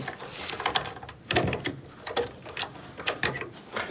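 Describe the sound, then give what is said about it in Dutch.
A key turns in an old door lock at the entrance to a former underground potato cellar, giving many irregular metallic clicks, scrapes and rattles in close succession. No one talks. “Even kijken of de sleutel wil.”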